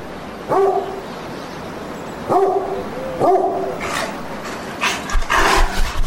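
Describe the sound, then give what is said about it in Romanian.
A dog gives three sharp, spaced barks, followed by a cluster of rougher, noisier bursts near the end. “Stai jos, javra dracului cu minte. Bă, spotolește-te. O să-mi crape inima din cauza ta.”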